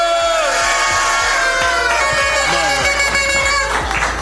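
Audience cheering and yelling at a live hip-hop show, a loud, dense, continuous roar of whoops and shouts that holds steady from start to finish.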